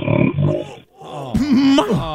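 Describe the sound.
Loud, heavy snoring with a growling, groaning character: rough rasping pulses give way to a louder wavering drone that bends up and down in pitch.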